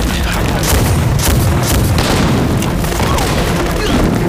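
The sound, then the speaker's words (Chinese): Heavy artillery fire and explosions as tanks attack on a battlefield: a dense, continuous, loud barrage of booming blasts and rumbling with no pause. “你看，他们坦克又开始进攻了。”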